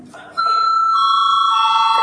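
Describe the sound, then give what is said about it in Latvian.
Electric bell in a parliament chamber, rung before a vote: a steady, loud ringing tone starts abruptly after a short moment and holds unbroken to the end. “Lūdzu zvanu.”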